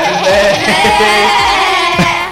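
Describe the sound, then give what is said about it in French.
Goats bleating together in a few repeated, wavering, nasal calls that overlap at a steady, fairly loud level. “Mais allez les chèvres, tous ensemble.”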